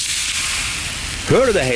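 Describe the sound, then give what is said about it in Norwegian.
A big beefy burger sizzles on a grill, a steady, loud crackling hiss running throughout, with a person speaking briefly over it near the end. “Det er lyden av en grill, perfekt big beefy burger.”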